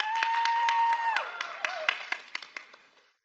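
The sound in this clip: Students in an audience at a scripture talk clapping in a steady rhythmic beat, many sharp claps spaced evenly, with a held tone over the first part that then fades; fairly faint overall.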